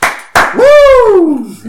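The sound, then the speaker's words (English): A single sharp hand clap, followed by a long voiced exclamation that rises and then falls in pitch, loud and close. “And as soon as that happened, I got up and like clapped my hands, was like,”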